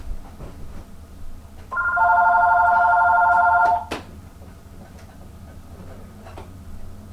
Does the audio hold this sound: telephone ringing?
yes